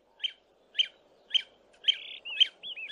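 Cheerful bird song: a string of bright, high chirps repeating at a steady, even pace, growing busier with short whistled trills toward the end. Fairly soft and heard alone.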